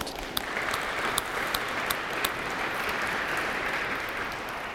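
An audience at a church service applauds the Moscow Worship Band with dense, even clapping that holds steady at a moderate level, a few sharper claps standing out.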